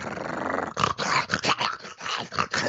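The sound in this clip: A voice imitates a vicious, aggressive dog's growl with a string of rough, throaty snarls in short uneven bursts, with no other talk.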